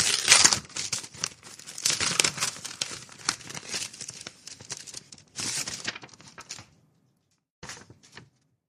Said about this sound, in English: We have another letter here. Let's open this guy.